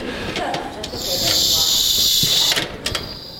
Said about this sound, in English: Just start sautéing over here.